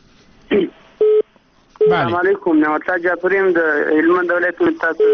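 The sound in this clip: A telephone line connects a new caller on a radio call-in show. A short steady electronic tone sounds, then a voice comes through the line and talks almost without pause.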